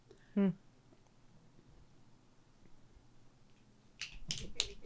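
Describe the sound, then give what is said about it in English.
An audience answers with finger snapping. A single quick burst of snaps comes early, then a quiet stretch, and a louder cluster of several snaps closes the moment. “Snaps from the audience.”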